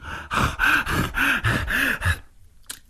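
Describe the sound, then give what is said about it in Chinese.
A man's voice imitates heavy panting after a beating: a quick, rhythmic run of about five strained, voiced gasps that stops abruptly. “打得太疼了，他光顾着喘气”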